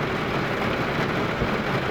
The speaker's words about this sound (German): ist gerade eine ziemlich heftige Gewitterzelle mit Starkregen und Hagel, kleinkörnigen Hagel und Sicht beim Fahren gleich null.